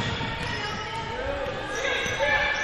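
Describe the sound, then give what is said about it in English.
A basketball is dribbled right-handed on a court during a game, repeated low thumps under steady crowd din and voices. “right-hand dribble by Sandra Chooks.”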